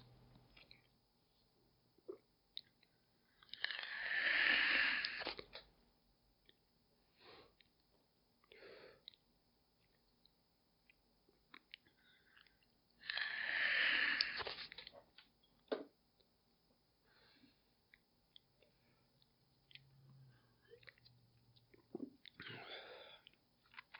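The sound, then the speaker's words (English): Two drags off an e-cigarette, each a soft, breathy hiss lasting about a second and a half, roughly ten seconds apart, with faint small noises in the quiet between. “All right, I'm also going to get a couple drags off my e-cig.”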